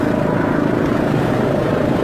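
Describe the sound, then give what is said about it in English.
An airplane flying overhead at an air show gives a continuous, loud engine roar, a dense and steady rush that holds without breaks. “Dad, look at that plane.”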